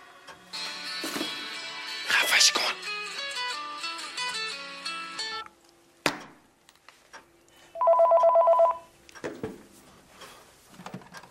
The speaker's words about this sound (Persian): تلفن بود. تک زنگ زد قطع شد.